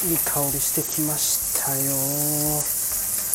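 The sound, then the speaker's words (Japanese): Bacon and onions frying in a pan: a steady, loud sizzling hiss runs throughout while a person talks over it. “ちょっとベーコンも炒めつつ、もう玉ねぎも炒めちゃいます。”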